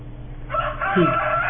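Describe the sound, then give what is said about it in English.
A rooster crows once, a loud, bright harmonic call held for about a second that rises out of a low, steady hum. “he gets crucified by other people after a rooster crows.”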